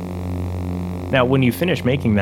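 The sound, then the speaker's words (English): A steady electronic hum recreating the lightsaber's foundation, a TV picture tube buzz blended with a projector hum, sounds alone as a low buzzing drone rich in harmonics, then continues under a speaking voice. “Ben combined the buzz with the projector hum to create the foundation of the lightsaber.”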